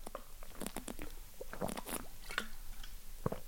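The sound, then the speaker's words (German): Someone takes a quick sip of a drink. Quiet, wet mouth clicks and small swallowing sounds are scattered irregularly, with no voices. “Aber ich trinke mal kurz einen Schluck, bevor wir an die nächsten 10 Fragen gehen.”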